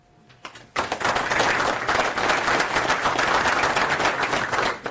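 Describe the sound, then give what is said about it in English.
Audience applause greets a conference speaker introduced to talk about Go in the Nix ecosystem. Dense clapping bursts in abruptly after a quiet second, then stays loud and steady before tapering slightly at the end. “A round of applause, please, for Paul Meyer, who's going to talk about Go in the Nix ecosystem and some interesting work he did in that area.”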